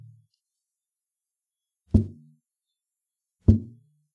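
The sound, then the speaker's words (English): A zabumba, a double-headed shallow bass drum, has its top head struck twice with a pirulito mallet, each blow a deep, thumping hit with a short decay, separated by a long silence. “The top of the drum is played with a mallet called pirulito, either in open strokes, or closed strokes.”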